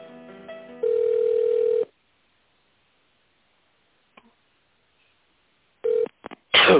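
Telephone line tones sound as a call is transferred to an extension. Short beeps lead into a steady tone of about a second, then near silence, then a few short tones and beeps at the end.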